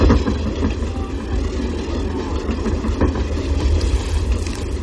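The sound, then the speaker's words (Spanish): A train runs a few metres from an inn. Its steady, loud rumble carries a rapid rail clatter that holds throughout. “Un tren circula a unos metros de la posada. La habitación tiembla.”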